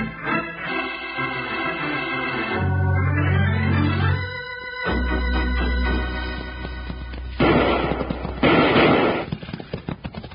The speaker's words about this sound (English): Before they could draw their six guns, they were greeted with gun smoke and action in a town that knew only one man rule.